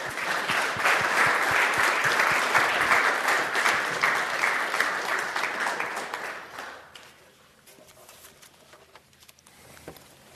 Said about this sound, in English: let's give Dr. Michael Sprague a warm welcome